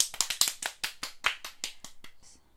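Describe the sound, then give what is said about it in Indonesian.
Children clap their hands in a quick, uneven run of many sharp claps over about two and a half seconds, fairly faint, with no other sound, the final clap softer. “tepuk tangan dulu.”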